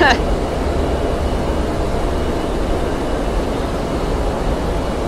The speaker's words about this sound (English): So this is the plane that my mechanic put the new engine in.